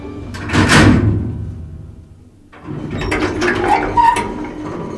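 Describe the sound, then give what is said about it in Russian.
Elevator doors slide open with a loud rushing swish, then after a short lull a longer stretch of rattling, scraping mechanical movement follows. “После небольшой паузы двери раздвинулись”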